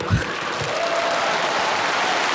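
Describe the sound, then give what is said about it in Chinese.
Audience applause at an awards ceremony: a dense, steady wash of clapping that holds at an even level for the whole stretch, with a brief low thump near the start. “你必须说一位，咱们给海璐姐鼓掌。”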